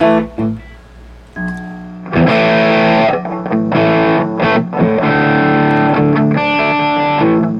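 Soft instrument tones pass through a distortion effects pedal: a few quiet, sustained notes at first, then fuller, louder chord-like tones that ring on with a buzzy, saturated edge to the end.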